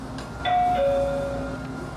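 A station arrival chime plays two clear electronic notes, the first higher and the second lower and held longer, over a steady low hum.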